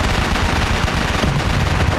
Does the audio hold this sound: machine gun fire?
yes